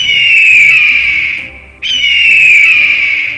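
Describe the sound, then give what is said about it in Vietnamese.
An eagle cries from far away: two long, shrill, piercing screeches, each sliding slightly downward in pitch. The first fades briefly before the second starts abruptly. “Tiếng chim ưng lanh lảnh truyền đến từ phương xa, Nghiêm Mặc giật giật tai”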